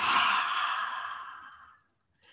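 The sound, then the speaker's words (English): Slow, deep breath out during a guided breathing exercise: a long breathy exhale that starts loud and fades away over about two seconds, followed by a faint click. “Take another deep breath in. Hold it. And out.”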